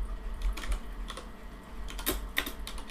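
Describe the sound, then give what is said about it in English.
Typing a search on a computer keyboard: a few quick, irregular key clicks, with a couple of sharper taps near the end, heard alone without speech. “I just want to say I typed in personal development and the top thing that came up, personal development podcast.”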